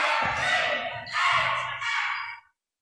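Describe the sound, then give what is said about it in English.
Spectators at a women's basketball game cheer and shout in three loud swelling bursts, then the noise cuts off abruptly near the end. “Good defense. Crowd coming to life a little bit.”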